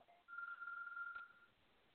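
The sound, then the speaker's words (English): A single steady electronic telephone ringing tone, held at a mid-high pitch for about a second, then dropping away to a faint hiss. The whole clip is quiet. “What are you doing, trying to find a phone? Oh, that's the ringing? That's odd. I think I broke the phone when I tried to call in.”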